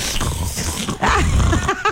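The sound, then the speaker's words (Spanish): A person's stomach growling, a run of squeaky, pitched gurgles that sweep up and down, growing stronger and more frequent in the second half. “Esa fue mi tripa. La tripa.”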